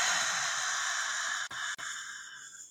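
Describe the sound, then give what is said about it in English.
A long breath, in through the nose and out through the mouth, makes a steady airy hiss that breaks twice briefly in the middle and then gradually fades toward the end. “So breathe in through your nose. Let it out through your mouth.”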